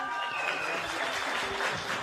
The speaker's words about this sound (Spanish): Bueno, unos gritan más que otros.